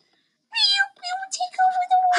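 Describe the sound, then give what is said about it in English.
A high voice imitates a cat meowing, giving a few drawn-out meows in quick succession. “Everybody help, we're having a cat takeover.”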